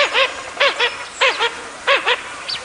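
Blue-winged teal calling: a run of about eight loud, nasal, harmonic calls, mostly grouped in quick pairs with short gaps between.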